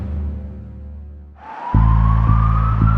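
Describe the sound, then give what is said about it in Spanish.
An ambulance siren starts about halfway through, after a fading tonal sound: a loud, steady wail that slowly rises in pitch, with a low rumbling pulse repeating a few times beneath it. “Esa es una ambulancia. Allí va alguien que necesita ayuda urgente.”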